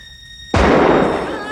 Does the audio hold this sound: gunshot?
yes